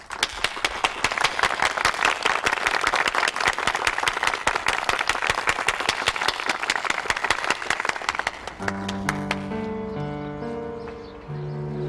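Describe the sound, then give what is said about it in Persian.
An audience applauds in honour of a simple, honest worker: dense, steady clapping for about eight seconds, then sustained musical tones take over. “بنابراین من میخوام از شما خواهش کنم به افتخار این کارگر ساده و شریف آقای اردلان زرین کلاه دست بزنید.”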